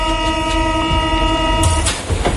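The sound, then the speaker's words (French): Paris metro train running, with a steady, sustained whine of tonal motor notes over a continuous low rumble, plus a few brief louder swells near the end. “Allez, je vous emmène dans une rame de métro, pas comme les autres.”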